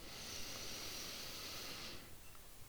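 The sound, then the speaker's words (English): One deep inhale in a relaxation exercise, drawn in while the shoulders lift. It is a soft, steady, breathy hiss lasting about two seconds that then stops. “Breathe in deeply, drawing the shoulders up.”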